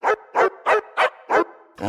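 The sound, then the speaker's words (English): A dog barks six times in a fast, evenly spaced run, each bark sharp and loud, with no other sounds. “That's her dog Waffles, nice.”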